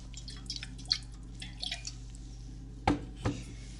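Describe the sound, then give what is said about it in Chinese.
Alcohol is sprinkled onto a bleeding wound to disinfect it, giving faint liquid drips. Scattered small drips come first, then two sharper, louder splashes close together near the end. “来，我帮你消毒，撒一下酒精。”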